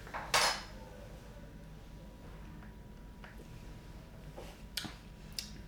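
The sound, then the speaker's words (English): A spoon stirs espresso in a cup, making a few light metallic clinks, the first a little louder, against a quiet background. “I'm diving straight into the espresso. Give it a quick stir.”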